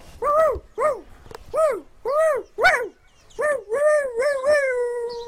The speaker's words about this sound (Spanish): Era una noche tranquila en Cerezales cuando de repente se oyó el ladrido de un perro